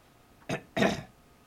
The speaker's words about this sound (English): wow, I got some phlegm in my throat.